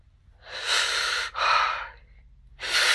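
Heavy breathing right into the ear: long, breathy inhales and exhales, three loud airy breaths with a brief break between the first two and a quieter gap before the last.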